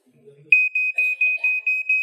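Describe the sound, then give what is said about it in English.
A smoke detector alarm sounds as a fast series of sharp, loud, high-pitched beeps on one steady tone, following a brief low murmur. “Smoke detectors serve a purpose. They get our attention, and that's the whole point. If that happens in the middle of the night, I have to get up and investigate why it's going off.”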